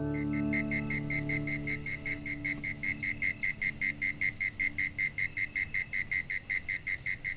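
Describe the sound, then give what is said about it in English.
Layered insects on a warm late spring evening, led by crickets: a bright, high, rapidly pulsing trill holds steady throughout, with softer chirring beneath. “The layered sounds of insects on a warm late spring evening have often been compared to a symphony.”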